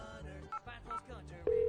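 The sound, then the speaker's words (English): Telephone keypad tones dial into a voicemail line: two short beeps sound amid a faint voice, followed by a louder steady tone that holds to the end. “Let's check the voicemail.”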